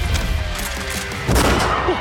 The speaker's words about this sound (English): Shots fired!